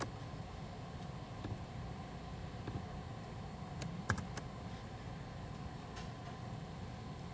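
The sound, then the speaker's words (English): Faint keystrokes as a whois command is typed on a computer keyboard, a few scattered taps and a small cluster of clicks over a steady background hiss. “you can see I typed in this whois command, which looks up some database records relating to this IP address that I typed in.”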